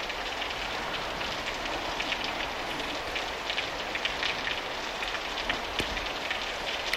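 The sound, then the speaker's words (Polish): Rain falls steadily by a municipal cemetery, a dense, even hiss dotted with faint pattering drops, constant throughout with no voices. “Deszcz pada.”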